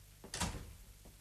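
A door closes with one short, muffled thud, quiet and brief, followed by a faint trailing knock.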